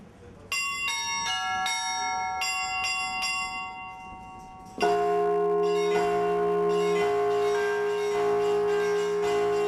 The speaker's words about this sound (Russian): Например, московский – радостный, веселый, пасхальный. Московский звон.